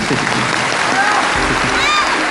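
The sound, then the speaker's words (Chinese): Studio audience applause for two contestants on a quiz competition show, a steady, even clapping with no break from start to finish. “我们把掌声送给王东立，送给王雨涵。”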